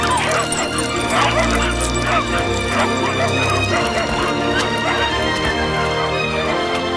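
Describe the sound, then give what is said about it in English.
Puppies pour out of a shop, barking and yapping in a dense, continuous clamor of many overlapping high yips and barks that keeps going without a break. “The puppies pour out of the shop.”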